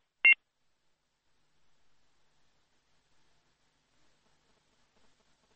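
Short electronic phone beep as a caller's line disconnects: one brief, fairly loud high-pitched beep, followed by near silence with only faint low noise.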